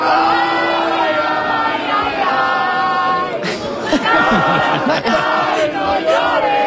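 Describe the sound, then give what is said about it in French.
Mexican football fans singing a classic song together outside the stadium after a victory: a dense, loud wall of crowd voices that carries on steadily, with rougher shouts breaking through in the second half. “J'en ai un petit bout, par contre, de partisans à la sortie du stade qui l'ont chanté.”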